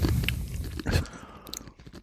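Someone bites and chews a firm corn-based snack, starting with dense, crisp crunches and easing into softer, irregular chewing.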